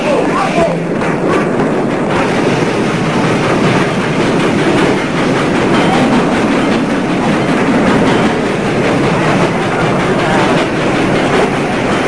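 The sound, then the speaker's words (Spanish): A train pulling out of a station at night: a continuous, loud rumble and rattling clatter of rail cars that fills the whole clip at a steady level. “Las luces del tren se perdieron de vista pronto. Y un minuto más tarde, ya no se oía nada.”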